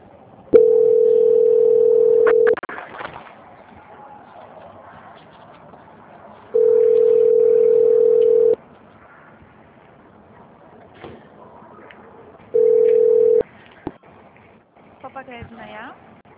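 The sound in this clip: A steady telephone line tone plays while a call is being transferred. It comes in three long, even bursts of one pitch, with quieter gaps of faint background noise between them and a brief soft rustle near the end.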